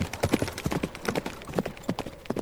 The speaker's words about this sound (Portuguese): Tem um cavalo extra e não temos tempo a perder. Vocês deixam a hospedaria e partem em um galope rápido por uma estrada de terra batida que atravessa um bosque.